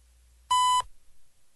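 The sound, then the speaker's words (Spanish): A single steady, pure beep from the Ecuadorian Navy Oceanographic Institute radio time signal lasts about a third of a second and stands alone against near silence. “emitida por el Instituto Oceanográfico de la Armada. Al oír el tono serán 16 horas, 34 minutos, 0 segundos.”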